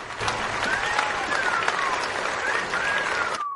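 Audience applause mixed with whistling as a couple leaves a contest stage: steady, dense clapping throughout, with several gliding high whistles over it before an abrupt stop.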